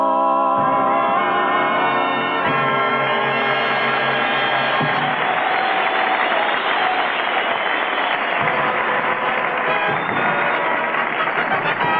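Audience cheering and applause swell in loud and sustained as the closing notes of a sung tune fade underneath, and the noisy crowd sound fills the rest of the stretch.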